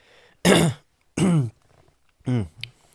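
Someone clears their throat as if something is caught in it: three harsh, guttural rasps spaced about a second apart, the last followed by a brief softer catch.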